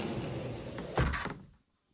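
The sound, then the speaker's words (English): A hidden wall in a candlelit gallery slides shut, ending in a dull, low thud. A short rumble trails off into silence. “As Mike and Karen stepped into the room, the wall behind them slid closed”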